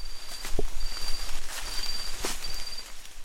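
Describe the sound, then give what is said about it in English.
Footsteps crunching along a footpath toward a camp: a few soft, uneven steps in a noisy outdoor background, with a thin, high, insect-like tone coming and going throughout. “This is the walk to Camp 41. It really does sound like you are in the thick of it there.”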